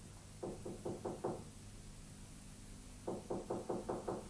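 Knocking at the bedroom door of Doña Sol in the palace of Don Rui Gomez de Silva, Duke of Pastrana, in a radio drama: two bursts of quick, evenly spaced raps, about five then six, with a long quiet gap between them.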